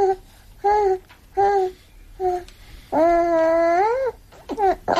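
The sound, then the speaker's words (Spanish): Baby babbling in a few short, bright voiced syllables, followed by one long, drawn-out vocal sound and a few quicker babbles. The voice is high-pitched and sits alone over quiet background. “La risa de un bebé. Sus primeros balbuceos. Su reacción cuando se agita el sonajero.”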